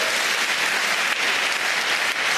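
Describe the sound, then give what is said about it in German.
An audience of about 1000 people at a band's show applauds the music, with thick, continuous clapping at a steady, fairly loud level. “Ich stehe vor 1000 Leuten und ich bekomme Applaus für meine Musik.”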